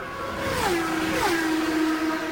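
Race cars passing the start-finish line as the leaders pull away: two high engine whines in close succession, each dropping sharply in pitch as it goes by, over a steady broad roar.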